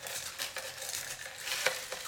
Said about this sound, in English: He's putting the crushed ice into the mixing glass, for those of you who are wondering what the hell's going on.